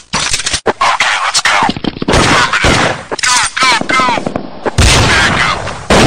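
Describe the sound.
Gunfire breaks out in a street in Brazil as loud, sharp bursts of shots. Shouting voices cut in and out between the volleys.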